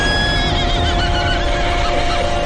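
A horse pulling a carriage neighs, a wavering, high whinny in the first half that rides over a steady background hum and noise.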